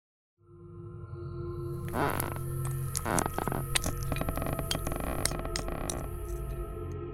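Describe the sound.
Broken glass crunches underfoot while an old parquet floor creaks, a dense, continuous gritty crackle with sharper bursts scattered through it, fairly loud and steady with no talking.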